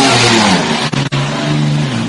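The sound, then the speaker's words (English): A Ferrari's twin-turbocharged 3-litre V6 fires back into life and revs hard as the car rejoins a motor race. A loud, sustained engine roar, cut by two brief dips in quick succession. “Wonderful noise as the twin-turbocharged little 3-litre V6 fires back into life then as that Ferrari rejoins the motor race”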